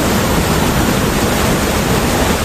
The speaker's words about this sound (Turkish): Sağanak sonrası kısa sürede taşan sular Patriot Mahallesi'ndeki köy içi yolları su altında bıraktı. Yollar göle dönerken köylüler zor anlar yaşadı.